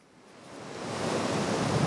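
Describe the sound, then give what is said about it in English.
Ocean waves crash on El Zonte Beach on El Salvador's Pacific coast, a broad rushing hiss that swells steadily louder over about two seconds and then holds. “Just a few blocks up from the crashing waves of El Zonte Beach on El Salvador's Pacific coast”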